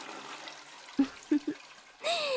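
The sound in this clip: A toilet flushes: a few soft low thumps over a faint hiss, then a sudden rush of water starts near the end.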